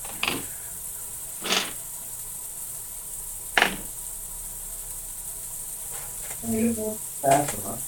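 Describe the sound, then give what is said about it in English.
Seasoned burgers sizzle while frying in a pan, giving a steady high hiss that runs under intermittent talk and a few louder bursts of sound. “That sounds good. I got the sizzle.”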